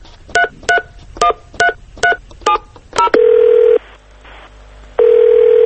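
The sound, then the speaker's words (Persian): Seven short touch-tone beeps sound at an even pace as a telephone number is dialed. Two longer, loud ringing tones follow, separated by a pause. “خب اجازه بدین من اولین شماره رو بگیرم، یکی از این خبرگزاری هاستش.”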